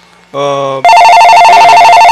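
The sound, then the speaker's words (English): A telephone ringing with an incoming call on a call-in line: a short tonal note, then a loud, bright, sustained ring with a pulsing warble that lasts to the end. “I think we got another call.”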